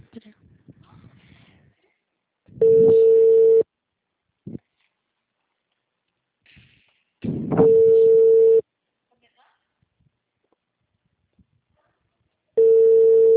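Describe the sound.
A telephone ringback tone sounds while a call is placed: three steady, even tone bursts of about a second each, spaced regularly about five seconds apart, the last cut off. Brief speech and small noises fall between them.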